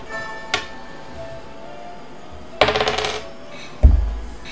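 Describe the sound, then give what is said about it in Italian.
A die rolled on a table during a tabletop role-playing game: a light click, then a brief clattering run of rapid bounces, and a final sharp knock with a low thud. “tiri il dado”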